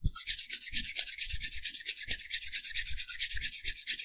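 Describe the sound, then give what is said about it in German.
Hands rubbing briskly together, a dry, continuous swishing made of many quick rhythmic strokes, steady and fairly loud with no voices. “Reibt eure Hände aneinander”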